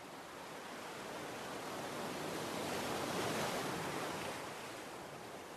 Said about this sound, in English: Feel the relief Paul felt as his weariness washes away with each wave lapping his legs.